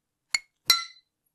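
Glasses clink in a toast over a bottled, carbonated mate soda with fine bubbles: two bright, high-pitched clinks, the first short and sharp, the second louder with a brief ringing tail, with no voices.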